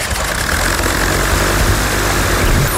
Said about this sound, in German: Also nicht wundern, wenn demnächst zwischen Bad Oldesloe und Selen so eine Drohne über euch rüberflattert.